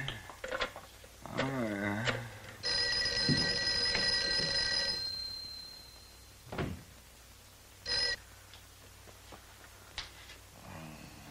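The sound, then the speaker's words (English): Telephone bell ringing unanswered on the far end of a call: one long ringing burst of about two seconds, then a brief second ring some seconds later, with faint knocks and handling noises between. “Mary, see if you can get Jan on the phone.”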